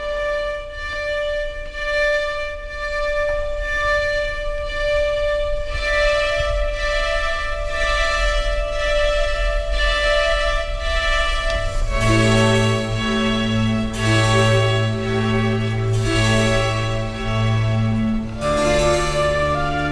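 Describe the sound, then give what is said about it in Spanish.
Slow Baroque melody by Alessandro Marcello in Johann Sebastian Bach's arrangement: long, sustained tones held over a soft orchestral backing, with deeper held notes joining about halfway through and the texture thickening. “pero hoy os voy a decir, es del padre Alessandro Marcello, pero estuvo arreglada por Johann Sebastian Bach y suena así de maravilla.”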